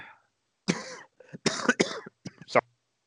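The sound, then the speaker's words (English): A coughing fit: several harsh, abrupt coughs in irregular bursts with short gaps, fairly quiet and with no talk. “Are you having a coughing fit? Yeah, randomly.”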